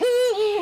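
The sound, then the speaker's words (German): A Eurasian eagle-owl gives a short two-part hoot, the second note slightly lower than the first, clear and alone, lasting under a second. “Das ist der Uhu.”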